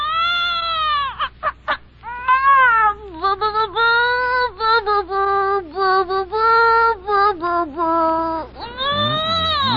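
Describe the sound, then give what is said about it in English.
A radio sound effect of a baby crooning: a voice imitates it with many wavering, meow-like wails that slide up and down in pitch, in short bursts and longer drawn-out phrases. “Well, that's Bing Crosby's new baby getting his first crooning lesson.”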